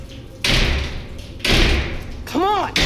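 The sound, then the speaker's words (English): Kicks against the bars of a loose steel door frame that sits slack on its hinges: three heavy rattling, clanging impacts, the last one joined by a strained vocal grunt. “The steel frame is loose on its hinges. I kick at the bars.”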